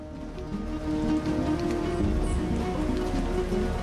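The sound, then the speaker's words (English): Heavy rain pours down on a mountain rainforest, a dense, steady hiss of drops that holds loud and unbroken throughout. “A dense mist descends on a mountain peak covered with thick rainforest. On the ground, Waters and his men find themselves besieged by a downpour.”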